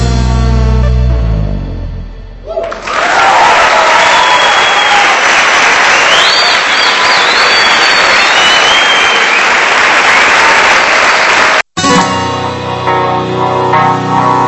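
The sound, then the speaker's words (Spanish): Loud, dense applause from the audience of a live album recording starts as a song's final notes fade, holds steady for about nine seconds, then breaks off and music starts again. “con esos aplausos que... del disco en vivo”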